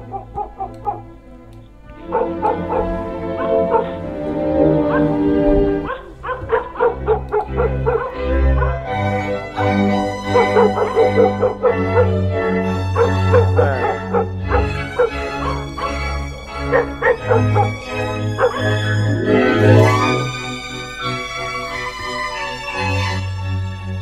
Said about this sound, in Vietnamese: Chó của cả làng lại cắn lên ông ọc đến rát cả ruột.